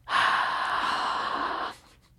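Breath blown straight into a microphone: a single long, loud, breathy exhale lasting about a second and a half, with no voices and quiet before and after.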